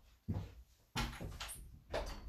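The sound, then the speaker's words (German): A bathroom door is being opened with a few soft thumps and knocks. The sounds are quiet, with short pauses between them. “Kannst du bitte die Tür zu? Oh, was hast du? Ich komm rein, mach die Tür auf, mach sie nicht zu.”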